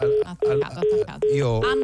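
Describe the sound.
A telephone busy tone sounds after a caller hangs up: five short, steady, evenly spaced beeps, each followed by an equal gap, with people talking over them.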